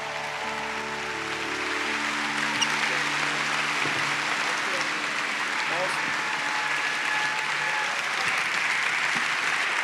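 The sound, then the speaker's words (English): A standing church audience applauding to welcome Pastor Tim Timberlake, dense, loud, even clapping that holds steady throughout. “So come on, I want you to give the best welcome you can. I want you to stand to your feet right now. Let's welcome Pastor Tim Timberlake.”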